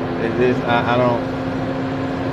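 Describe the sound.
Steady low hum of a car interior, an even droning rumble throughout, with a voice talking over it in the first second.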